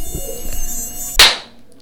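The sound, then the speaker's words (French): Mosquitoes buzzing in a loud, high, whining drone with steady harmonic tones, cut off by a sharp noisy burst that fades into quiet. “Oh là là, c'est quoi tous ces moustiques ?”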